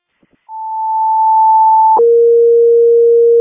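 Fire dispatch alert tones: a loud, steady high tone holds for about a second and a half, then switches abruptly to a lower steady tone that sounds alone until the end.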